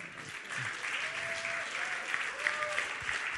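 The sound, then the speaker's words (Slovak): Audience applause, a steady, sustained patter of many hands clapping at even, fairly soft loudness throughout. “Pozbuďme ho teraz, aj vy sa trošku rozsypte, zatleskajme.”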